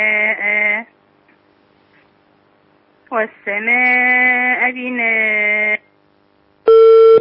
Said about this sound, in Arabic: حاولي تتابعينا باتصال آخر، اتصال انقطع